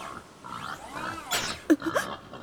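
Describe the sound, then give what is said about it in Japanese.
Wild boar grunting in a few short, low, rough bursts, the loudest coming near the end, mixed with some fainter tonal sounds in the background. “あれは我が天敵のイノシシさん。いつも何もしていないのに妙に攻撃的なんですよね。”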